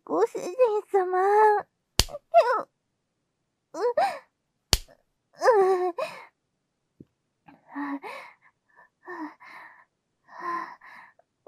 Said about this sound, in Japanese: もう、お尻を叩くのは、ちょっと、ご主人様、待って。